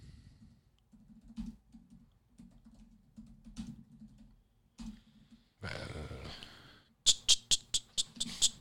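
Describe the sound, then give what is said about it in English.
Someone types a search on a computer keyboard: irregular, soft key taps over a low hum, then a denser burst of clatter, and finally a rapid run of sharp, loud clicks. “I'm going to type in those exact same words and see if I get it.”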